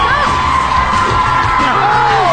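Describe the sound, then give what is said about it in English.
Crowd cheering and chanting for the red team during a family bucket-filling game: excited shouts and whoops, children's voices among them, loud and steady throughout. “Crowd is chanting red. Both teams are so close.”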